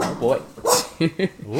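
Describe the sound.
Dogs barking under ongoing conversation, with a couple of short, sharp barks standing out between the voices.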